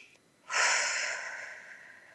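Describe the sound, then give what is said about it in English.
A deep belly breath drawn in through the nose during a guided breathing exercise: one soft, airy inhale that swells quickly, then slowly tapers off in quiet. “So let's take a breath together. Really deep, all the way in your belly. Let your belly expand.”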